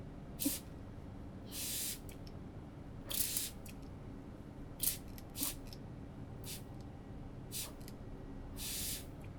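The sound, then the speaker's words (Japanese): Chemical cleaner sprayed generously onto a stove burner: many short, hissing spray bursts at an uneven pace, each a sharp airy spurt with quiet pauses between, over a faint steady background. “こっちはケミカルでいっちゃいます。まずはスプレー、これもたっぷりめにかけて、”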